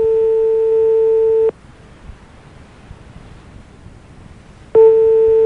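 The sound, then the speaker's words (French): A telephone busy signal: a steady, loud electronic tone that cuts off after about a second and a half. A long quiet gap follows before the same tone starts again at the end. “Vous êtes seul chez vous, ça sonne? Ça sonne occupé chez vous?”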